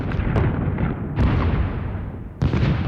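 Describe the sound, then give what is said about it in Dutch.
A bombardment of explosions and artillery fire: several heavy, deep booms break over a continuous roaring rumble that never fully dies away. “Zo klinkt een bombardement.”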